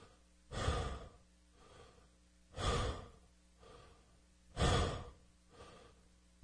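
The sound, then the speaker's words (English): Connected mouth breathing in a breathwork exercise, with no pauses between inhale and exhale: three loud, rushing breaths in an even rhythm, each followed by a softer, quieter breath. “pull on the inhale, relax on the exhale, and keep it connected so there's no pauses. So let's do 20 of those.”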